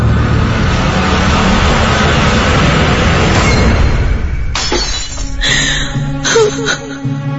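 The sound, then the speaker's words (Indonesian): A glass cup falls and shatters in a pantry. After a long stretch of loud, low rumbling noise, a few sharp crashes break out, and bright ringing tones linger between them. “gelas cangkir yang kupegang itu pun jatuh dan pecah”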